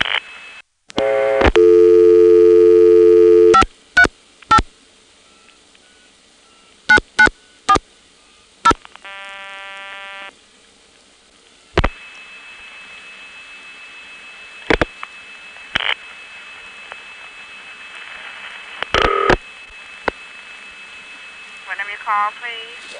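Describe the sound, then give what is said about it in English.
Telephone trunk signalling tones sound as an operator keys in a called number over an N3 family trunk. A loud sustained tone burst is followed by a string of short sharp beeps and a multitone chirp, then a steady tone with occasional clicks. “the AIS operator has to key in the number you're calling. This goes over an N3 family trunk, and you'll hear the skrit noise.”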